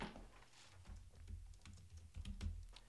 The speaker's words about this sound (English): So I go over here to my handy dandy spreadsheet here, and I'm going to type in cost of goods.